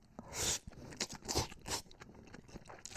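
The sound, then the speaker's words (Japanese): Crunching and chewing as noodles are eaten together with crunchy bean sprouts: a few crisp, moist bites with softer chewing between them, moderately loud and with no talk. “この麺らしきものとですね、もやしですね、これをこう絡めて一緒に食べましょうね。いただきます。”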